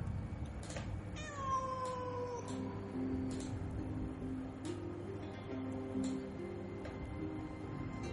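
A wild cat calls at night: one drawn-out meow that falls in pitch, set over a steady low background hum, with no voices.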